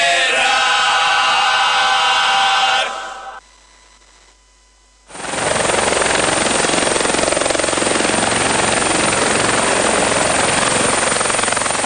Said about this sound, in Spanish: el sonido anhelado del helicóptero.